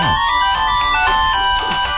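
A mobile phone ringtone plays steady, bright melodic tones that carry on unbroken throughout, with no voices over it.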